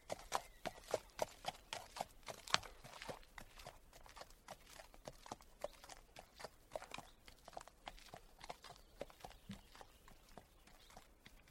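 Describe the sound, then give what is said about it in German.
A ridden horse walks slowly, its hooves clip-clopping in many soft, regular footfalls at an unhurried walking pace, faint and steady throughout. “Wir werden zuerst langsam reiten. Das heißt Schritt.”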